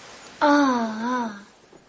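A baby girl's single drawn-out wailing cry, loud and tonal with a slightly wavering pitch, lasting about a second on its own before fading to near silence.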